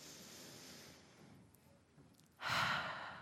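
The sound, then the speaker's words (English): Slow breathing in and out during a calm meditation exercise: a soft, drawn-out inhale, then a sudden louder, breathy exhale that trails off. “So I'll notice the quality of my in-breath and the quality of my out-breath, just like that. In,”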